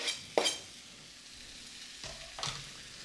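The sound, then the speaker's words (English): Smoked rare roast beef, already cooked to 135, sizzles faintly as it warms in a pan with seasoning. A few short, louder bursts of crackle rise over the quiet, steady frying hiss. “I'm going to put this in here and put a little seasoning on it, and we're just going to really warm the meat. It's not really about cooking it.”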